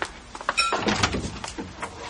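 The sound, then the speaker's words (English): Doors opening at a Christmas event give a faint mechanical rumble and clatter, with several scraping bursts over about two seconds. “All right, volunteers, stand by. I'm opening the doors.”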